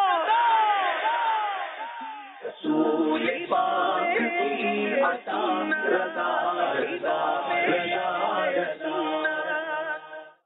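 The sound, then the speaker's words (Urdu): On an Urdu-language televised contest between teams from Faisalabad and Gujranwala, a studio audience shouts a slogan back in response. Many voices chant loudly in unison, in a few forceful phrases separated by brief pauses. “نعرے کا جواب دیجئے”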